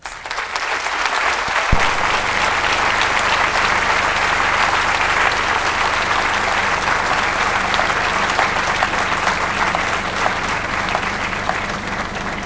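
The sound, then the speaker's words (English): Loud, sustained applause from an audience at the Edinburgh literary festival as author Norman Mailer is brought on, with dense clapping that continues without a break. “I'd like to ask you again, as we bring Norman up, to put your hands together for the great Norman Mailer.”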